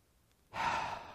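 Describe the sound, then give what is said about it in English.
A deep breath out: a long, airy sigh-like exhale begins after a moment of near silence and rushes steadily for over half a second before tailing off slightly. No voices. “And then breathe a lot like that.”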